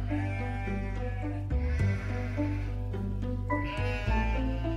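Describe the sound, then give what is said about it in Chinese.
A flock of sheep being herded bleats in several overlapping, wavering, nasal calls that run almost continuously over a low, steady hum, all fairly faint. “有个外地人赶着一群羊”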